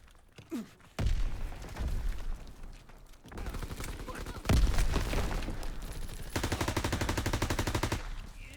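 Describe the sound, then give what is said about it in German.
Video game gunfire as a player pre-fires into a corner: separate bursts of shots and heavy thuds, ending in a long, rapid, evenly spaced volley of automatic fire. A voice is briefly audible early on. “Ich hab mal einfach pre-fired in die Ecke. Keine Munition.”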